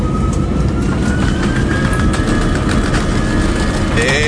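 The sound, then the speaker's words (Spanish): Loud, continuous roar of an airplane taking off, a dense, rumbling engine noise with a thin, steady whine over it, unbroken throughout. “Bueno, despegue efectuado, ya estamos en la bodega.”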